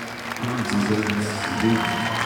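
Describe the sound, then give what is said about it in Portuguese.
Applause for the whole team at the end of a band's concert: a steady wash of clapping that swells slightly in the middle, with a voice heard over it. “Um grande, grande aplauso para toda a equipa.”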